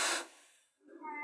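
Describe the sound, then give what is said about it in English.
A cat meowing: a short, thin tonal cry rises in near the end of a brief moment that opens with a breathy burst of noise. “Can you hear that? I can, yes. That is a cat.”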